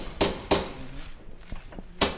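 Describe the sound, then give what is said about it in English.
Metal tapping as old solder is worked through to open a century-old time capsule: three sharp, louder knocks with a few softer taps between them, irregularly spaced. “After tapping through old solder and pulling out old screws, and eventually cutting with tin snips, archivists opened up a century-old time capsule”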